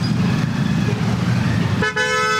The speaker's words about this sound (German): Ein typischer Morgen in Delhi. Der Verkehr nimmt zu, von überall her ertönen Hupen.